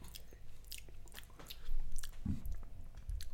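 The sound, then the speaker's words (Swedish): Wet biting and chewing of garlic-heavy food, a steady run of soft squishy mouth sounds with a louder crunchy bite near the middle and no talk over it. “Ja, vi äter. Mycket fan vad vitlök det.”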